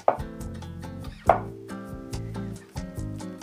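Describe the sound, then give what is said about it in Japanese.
A kitchen knife cuts tofu into large cubes on a cutting board while miso soup with oysters, garland chrysanthemum and shimeji mushrooms is prepared. A few sharp knocks of the blade against the board sound over steady musical tones. “豆腐も切ります豆腐は普通のさいの目でも構いませんがなんかねもうちょっと食べ応えが出るように少し大きめに切りますね”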